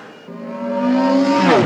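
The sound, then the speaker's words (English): A speeder bike flyby sound effect: a humming, harmonic engine whine swells steadily louder, then bends sharply down in pitch as it passes near the end. “Speeder bike flyby.”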